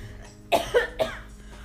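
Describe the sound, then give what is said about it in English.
Three quick, fairly loud coughs in close succession from a person in a casual conversation, with quiet in between and afterward. “I'm gonna need you to limit your coughing.”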